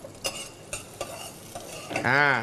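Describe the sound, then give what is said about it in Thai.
Shallots and garlic are stir-fried in a pan for pad thai. A few scraping stirring strokes play over a steady low sizzle, and a brief squeaky tone rises near the end. “แล้วก็กระเทียมอีก1ช้อนชาครับแล้วก็ผัดให้มีกลิ่นหอมครับ”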